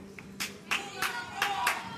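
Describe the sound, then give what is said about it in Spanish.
Faint applause after a paso doble song: a handful of separate, soft hand claps spaced across two seconds over a quiet background. “Muy aplaudida esa segunda letra de Paso Doble, como acaban de comprobar.”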